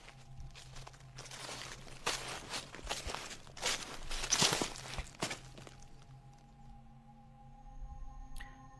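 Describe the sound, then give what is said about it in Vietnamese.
Footsteps rustle through dry leaves at night in a run of soft, crackling steps that crowd together, then thin out and leave near silence, faint throughout. “Tiếng bước chân của một người cứ loạt soạt, dẫm lên đám lá cây khô, vang lên rất rõ trong đêm tĩnh lặng.”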